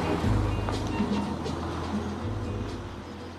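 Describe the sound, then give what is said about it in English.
A pickup truck approaches on a single-track road, heard as a low, steady engine rumble with a droning hum that stays fairly loud for a few seconds. “He is picking flowers on the roadside and looks up as a pickup truck approaches.”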